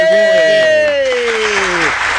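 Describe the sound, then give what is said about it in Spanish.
Applause for a student praised for his grades, a dense steady patter of clapping throughout with a voice sliding downward in pitch over it. “aplausos para Gondi, muy bien”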